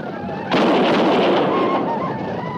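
A volley of gunfire from a group of defenders firing together on command: a sudden loud burst that swells into a dense, sustained crackling roar lasting to the end.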